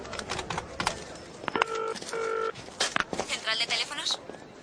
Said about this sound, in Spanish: saca un papel y marca otro número.